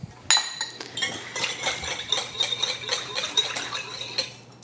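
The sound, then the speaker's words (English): Whisking a pickle-juice dressing for warm potato salad: a metal whisk clinks rapidly against a bowl in many quick, light, fairly steady taps, with no talk. “So you use a quarter cup of that juice. And then you're going to whisk that all up.”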